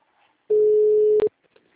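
Telephone ringing tone while a call is placed: a single loud, steady, mid-pitched beep lasting under a second, followed by a few faint clicks.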